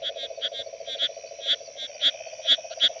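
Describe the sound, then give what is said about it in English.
A bumpy rocket frog calls in many short, sharp chirps in a quick, uneven series, with no voices, over a steady buzzing drone. “What's that sound? Oh, it's a frog! Yes! That is the sound of the bumpy rocket frog.”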